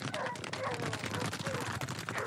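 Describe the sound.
Hunting hounds yap in dense thicket during a hare hunt, a loud, busy jumble of rapid sharp yelps and barks that runs on without a break.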